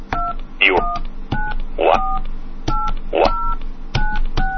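Telephone keypad tones are dialed on a phone line while a three-way conference call is set up: many short, loud beeps in quick groups, broken at intervals by brief sweeping chirps.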